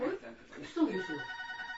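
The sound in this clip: A mobile phone rings with a steady electronic ringtone of sustained tones that run on under people talking.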